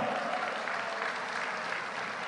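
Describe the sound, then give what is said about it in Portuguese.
Crowd applause at a political rally in Brazil: dense, steady clapping from many hands, loud and continuous throughout with no break. “Saudar e pedir uma salva de palmas calorosa a esse maior presidente da história do Brasil, Luiz Inácio Lula da Silva.”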